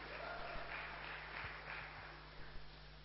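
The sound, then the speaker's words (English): Faint, steady applause from an audience welcoming family and friends, a soft even wash of clapping that continues for the whole clip without rising or falling. “Let's give them a hand.”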